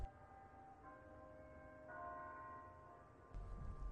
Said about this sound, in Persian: میبینی؟ زنگ کریستانس.